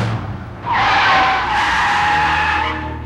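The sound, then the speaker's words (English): Cars drag racing from a traffic light on a city street: a loud, sustained tire squeal with engine roar as they launch, holding steady for a couple of seconds. “The light changes. The men drag race neck to neck to the next light.”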